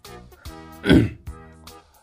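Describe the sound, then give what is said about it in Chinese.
A storyteller's voice imitates a monkey clearing its throat: one short, rough, gravelly burst framed by hummed, voiced sounds, loud against otherwise quiet surroundings. “他清了清嗓子”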